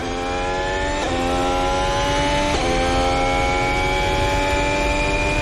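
Loud, steady whine of an electric race car at full throttle on a racetrack. The tonal drone drops briefly in pitch twice and then climbs again, with no talk over it.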